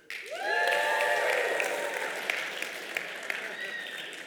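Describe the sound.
An audience at a church service cheers and applauds on cue, a dense wash of clapping with whoops and shouts rising above it, swelling quickly and holding loud for about four seconds.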